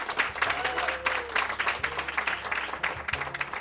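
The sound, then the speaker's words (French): Enthusiastic audience applause from a crowd in Gaspé: dense, steady clapping that holds at an even level for the whole stretch, with a few thin whistle-like tones rising above it. “Public en délire.”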